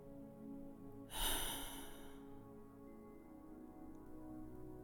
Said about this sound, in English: Now let's take one more breath like that together.